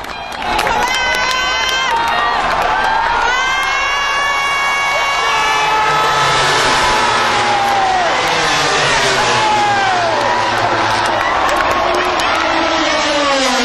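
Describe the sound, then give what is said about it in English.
A huge crowd goes wild as Rossi wins a race, sending up a continuous loud roar of cheering and whoops, with shrill wavering tones sweeping up and down over the sustained din. “Hear the sound of what it's like when Rossi wins a race, because the place went mental.”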